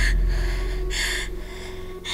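Laboured, gasping breaths from a pregnant woman struggling to get air: a few raspy, breathy intakes at uneven intervals over a steady low hum.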